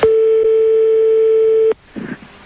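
A telephone line tone sounds while a call is being placed: one loud, steady, unbroken tone cuts off abruptly and is followed by a brief faint noise.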